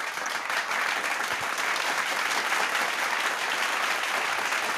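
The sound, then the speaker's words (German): Steady hand clapping from an audience giving applause at the close of a German talk show, a dense, even roar of claps that holds at the same loudness throughout with no voices over it. “Bravo. Ja, reicht jetzt auch. Ordentliches ja, ist, Handgeklapper, ne?”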